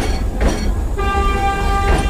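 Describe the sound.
Tram running on rails along a city street where cars stand on the tracks: a steady low rumble carries a sustained high tonal whine, loud and continuous throughout, with no voices.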